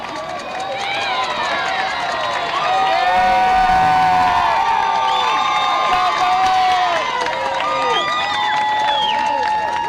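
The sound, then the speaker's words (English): Fans cheering at a baseball game after a right fielder's running catch: sustained cheers and whoops with a commentator talking over them. “Here are these Eagleville fans cheering on Ellis.”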